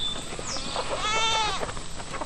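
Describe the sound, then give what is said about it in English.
Goats bleating on a 25-acre farm in rural Milledgeville, Baldwin County, Georgia; one clear, wavering bleat rises mid-clip over soft background noise. “On a 25-acre farm in rural Milledgeville in Baldwin County, John Jackson looks through a gate separating him from his goats.”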